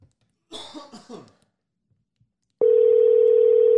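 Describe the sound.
Telephone ringback heard while placing a call: a few short throaty sounds like a cough, then, after a pause, a steady loud tone that begins abruptly and holds unbroken to the end.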